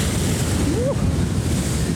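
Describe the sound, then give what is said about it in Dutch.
Waves sloshing beneath a narrow ledge, a loud, continuous rushing wash of water mixed with strong gusting wind noise, steady throughout with no distinct breaks. “Dus ik loop over een heel smal richeltje. En de golven klotsen echt onder me.”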